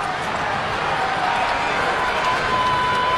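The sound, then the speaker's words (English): Baseball stadium crowd at a Reds game cheering as the star hitter comes to the plate with the tying run in scoring position, a dense, steady roar that holds at an even loudness throughout. “And the crowd comes to life because the star of this Reds team is coming to the plate in a big spot.”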